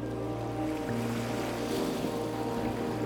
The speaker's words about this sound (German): Unsere Fähre hat mittlerweile angelegt. Schnell muss sie sich auf den Heimweg machen, bevor die Ebbe das gigantische Watt offenlegt.